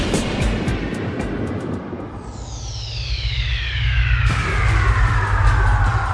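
Jet airplane taking off: a loud engine roar with a high whine that sweeps steadily downward in pitch over a deep rumble, which swells louder partway through. No voices.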